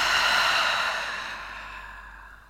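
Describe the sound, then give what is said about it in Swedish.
A single slow, breathy exhale from a guided breathing exercise, a soft airy rush that starts fairly strong and gradually fades away over a couple of seconds, with no talking. “Så vi gör det nu tillsammans. Vi andas in genom näsan och släpper ut.”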